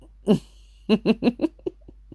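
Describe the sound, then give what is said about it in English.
A breathy groan of pleasure during intimate touching: one voiced burst, a brief pause, then a run of short, pulsing vocal bursts that grow fainter and trail off, with no words. “that's the sweetest groan”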